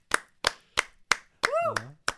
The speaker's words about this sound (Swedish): Oj, just applåd. Just applåd.